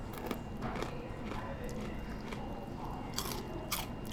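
Snack chips coated with MSG are crunched and chewed in a steady run of many crisp, brittle bites and grinding chews, with a few sharper crunches standing out.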